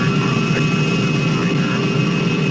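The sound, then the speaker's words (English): A steady, loud engine drone from an aircraft coming in to land. A constant roar carries a few sustained whining tones, with no voices. “Your attention, please. We will soon be landing at Westworld, the ultimate resort.”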